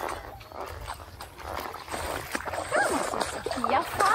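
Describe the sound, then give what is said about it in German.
Water splashes and churns as a pony swims, a broad, uneven wash of sloshing that grows louder toward the end, with voices talking over it. “Gut, dann gehen wir mal Pony schwimmen, Leute.”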